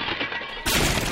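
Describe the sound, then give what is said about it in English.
An ottoman thrown from a second-story window lands with a sudden loud crash. A burst of broad, harsh noise cuts in after a quieter, murky stretch and stays loud until the end. “For the record, that's the sound of an ottoman being thrown from a second-story window.”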